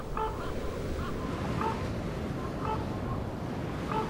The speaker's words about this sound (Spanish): el viento no deja de azotar estos desnudos riscos.